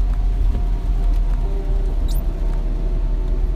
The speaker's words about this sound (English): driving in the rain sucks. Especially because my front two tires are like completely bald.